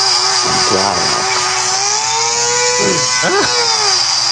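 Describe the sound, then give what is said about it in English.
Steady high-pitched motor whine of a coffee grinder for espresso, drill-like and loud, with broad hiss running continuously while voices talk briefly over it. “You're making espresso? And she's drilling.”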